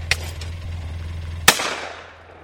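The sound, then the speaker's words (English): Shotgun fire at small orange clay discs during sporting clays shooting: a faint sharp crack, then a much louder blast about a second later whose tail fades slowly, over a low steady hum. “Groups move from target to target and shoot small orange clay discs. O'Brien refers to it as golf with guns.”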